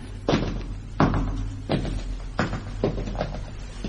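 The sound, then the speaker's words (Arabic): A heavy, castle-like door is pushed, giving a series of dull, low thuds and knocks at uneven intervals over a low, constant rumble. “تعالي نحاول نفتح الباب الكبير، الباب الكبير اللي قدامنا ده.”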